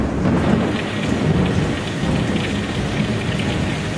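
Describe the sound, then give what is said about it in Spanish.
Rain falling over Cape Canaveral: a loud, steady, dense hiss of heavy downpour with a low rumble of thunder underneath, continuous throughout without pauses. “El 2 de mayo de 1961 llueve sobre Cabo Cañaveral.”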